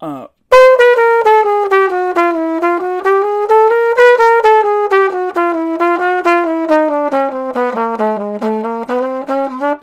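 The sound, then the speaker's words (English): A chromatic scale played in steady, even eighth notes on a single melodic instrument, loud and alone, the pitch climbing stepwise, then descending, then climbing again. “we're just going to play the chromatic scale in eighth notes all the time, and I don't care where you start and where you stop.”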